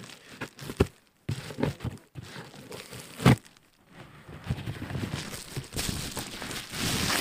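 A paper envelope with a small tear on the outside being handled and opened: bursts of crinkling and rustling paper, one sharp crackle midway, then a steady continuous rustle to the end.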